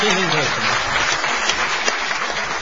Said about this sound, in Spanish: Vamos a aplaudir a Juanjo Domínguez.